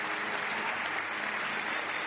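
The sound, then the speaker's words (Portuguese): An audience claps for the Lord in a dense, steady wash of applause. It is continuous and even throughout, with no voices. “Put your hands together for the Lord. Palmas para o Senhor.”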